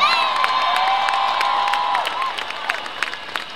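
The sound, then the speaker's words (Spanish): A crowd applauding and cheering at a public gathering: dense clapping mixed with shouts, whoops and a whistle, loud at first and then thinning toward the end. “Por favor, un aplauso para el pueblo de Cherán.”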